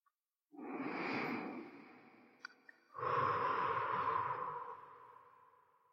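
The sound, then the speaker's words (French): A slow, deep breath drawn in through the nose, then after a brief pause a long breath let out through the mouth, both soft and airy with no other sound. “Inspirez profondément par le nez, puis expirez longuement par la bouche.”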